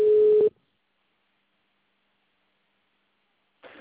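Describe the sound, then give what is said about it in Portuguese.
Telephone disconnect tone after a dropped call: one loud, steady mid-pitched beep that cuts off into silence, followed by a brief burst of faint line hiss. “Alô? Alô, a ligação caiu.”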